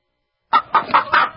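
Backyard chickens raised for meat cluck in five quick, throaty bursts after a short silence, fairly loud and with no voices.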